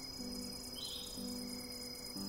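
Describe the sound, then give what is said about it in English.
Crickets chirp at night at a campsite, a high, steady pulsing trill that runs unbroken throughout, soft and even, with no voices. “She could also hear the crickets singing and a gentle breeze moving the tree branches back and forth.”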